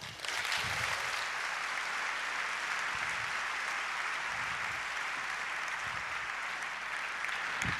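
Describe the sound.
Audience applause welcomes a conference speaker with dense, even clapping that continues without pause for several seconds.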